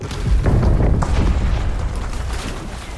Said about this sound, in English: And now that ship's exploded.